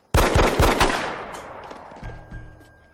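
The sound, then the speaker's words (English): Gunshots fire in a rapid burst of several loud, sharp cracks, then a long fading tail with a couple of faint thumps after it. “He just shot Marini.”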